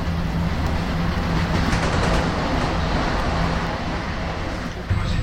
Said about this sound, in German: Am Bahnsteig 3 fährt ein Euro 787 TSLO zum München Hauptbahnhof nach Venedig. Bitte Vorsicht.